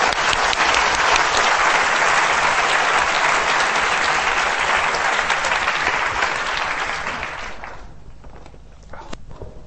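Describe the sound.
Audience applause welcoming a speaker at a public meeting: dense, steady clapping holds loud for several seconds, then tapers away into quiet with a few last scattered claps.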